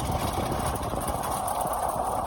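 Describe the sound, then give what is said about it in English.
A quad bike engine idles while hitched to a trailer of supplies, giving a steady, continuous rumble with no clear change in pitch or level. “I'm picked up by a woman driving a quad bike which is latched onto a trailer of supplies.”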